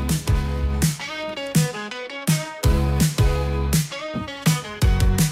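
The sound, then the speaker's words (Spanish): An AI-generated intro piece for a column plays: a loud electronic track with a punchy, repeating beat, deep bass hits and short melodic figures looping in a steady rhythm, with no voices. “Y vamos a escuchar un trabajo que hice con IA, que le da introducción a esta columna, ¿verdad? Ahí va.”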